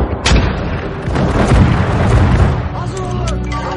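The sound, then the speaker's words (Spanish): Mortars fired by Turkish troops on a hillside in a war drama: heavy booming blasts over a dense, continuous rumble, with a few sharper reports standing out. “En una ladera, los turcos disparan morteros.”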